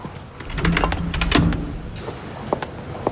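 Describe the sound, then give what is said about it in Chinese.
A door being closed, heard as a short sliding, rattling mechanical passage that peaks in a solid clunk, followed by a couple of faint clicks. “帮我把门关上。”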